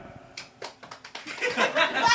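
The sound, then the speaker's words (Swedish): Audience applause at a live show in Helsingborg begins with a few scattered claps and swells into dense, steady clapping by the end. “Applådera.”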